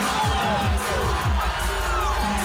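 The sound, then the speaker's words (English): A crowd at a dance reacts loudly to a fight breaking out, with dense overlapping shouts, whoops and cheering voices sustained throughout. “Little bit of it, some of the reaction from the crowd.”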